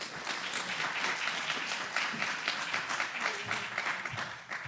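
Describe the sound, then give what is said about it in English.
An audience applauding to welcome a speaker to the stage, dense, steady clapping that continues without a break. “Everybody put your hands together and welcome Stacy.”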